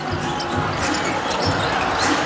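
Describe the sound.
A basketball is dribbled up past half court during a game, its bounces mixed into loud, steady crowd noise with a commentator talking over it.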